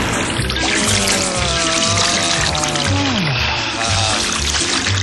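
Feet paddle and splash through water in the sun, a continuous, busy wash of splashing and trickling that stays fairly loud and even for the whole five seconds.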